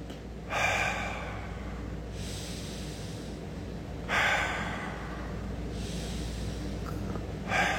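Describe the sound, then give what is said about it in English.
Deep breaths drawn in through the nose and pushed out through the mouth as part of a nostril breathing exercise: long, airy whooshes that rise and fade in a slow, repeating cycle, with no talk. “I want you to breathe in. Take a deep breath. Exhale through the mouth.”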